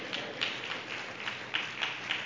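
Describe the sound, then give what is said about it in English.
An audience at a church service claps, a fairly faint, even spread of many hands with a few sharper claps standing out, steady throughout with no voices. “Give the Lord a good hand clap.”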